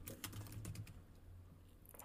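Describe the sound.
Keystrokes clatter on a computer keyboard as a web search is typed, a fast, faint run of clicks that thins out toward the end.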